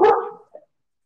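A boxer dog gives one loud, short bark that trails off quickly, followed by a faint, brief yip.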